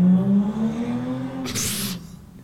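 A car engine revs and the car drives off fast outside a house in Spark Hill, Birmingham. A steady engine drone holds for a couple of seconds, then a brief hissing burst sounds before it fades.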